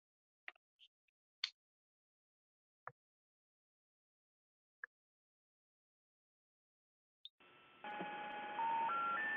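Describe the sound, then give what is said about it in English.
Touch-tone telephone dialing a toll-free number: a few brief, sparse clicks, then steady layered electronic tones filling the last couple of seconds and stepping up in level. “The toll-free number you have dialed has been disconnected.”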